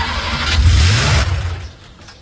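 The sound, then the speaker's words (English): A car engine starting after a repair: a loud, low rumbling roar swells for about a second, then fades to a quieter hum. The start sounds rough. “Turn on the engine and let's see what happens.”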